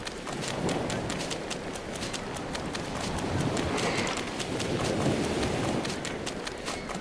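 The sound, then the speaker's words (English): Footsteps of the player walking east in an audio video game, a brisk, even run of clopping steps that repeats without a break over a dense, hissing background. “I'm just walking left, east. You've got to know your directions here in this game, otherwise you will get lost, by the way, just like in real life.”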